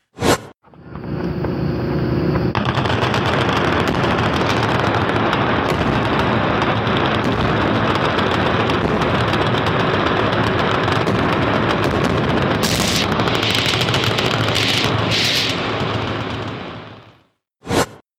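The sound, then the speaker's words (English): Rapid gunfire and explosives at a Kentucky gun range merge into a loud, unbroken roar lasting about fifteen seconds. A single sharp bang sounds just before and just after it. “That looks to me like gunfire at explosives of some sort. Almost as if it was done for some sort of, I don't know, gun show or something in Kentucky.”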